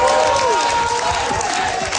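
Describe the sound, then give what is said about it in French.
A crowd of party supporters cheering and applauding an election victory: a dense, steady roar of shouts, clapping and excited voices, continuous and loud throughout. “Acclamé par ses militants après sa victoire, Stéphane Tremblay”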